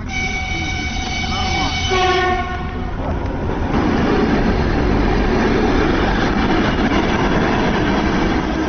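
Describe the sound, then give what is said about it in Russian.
An electric commuter train departing from a station track: a sustained horn-like tone for the first couple of seconds gives way to a steady, loud rumble and rattle of the moving train. “По второму пути отправляется резервный электропоезд.”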